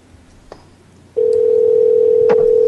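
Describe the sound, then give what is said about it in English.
An outgoing phone call ringing: a loud, steady electronic tone starts abruptly after a second of low background noise and holds evenly to the end. “Come on, answer the fucking phone, asshole.”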